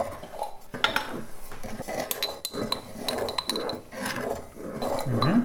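Spoon scraping and clinking against a pot while sugar and ginger are stirred in, a continuous busy run of many small metallic knocks and scrapes at a steady level with no talking.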